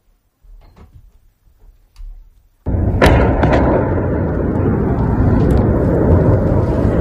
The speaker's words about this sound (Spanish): este es el sonido de una bomba que ha caído hace unos minutos en Kiev.